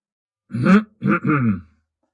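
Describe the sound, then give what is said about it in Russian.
A man clears his throat in a gruff, voiced ahem made of three short bursts, fairly loud and alone with no other sound around it. “Он прочистил горло.”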